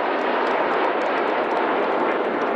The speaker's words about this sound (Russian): В небе группа из 4 тяжелых истребителей-перехватчиков МиГ-31.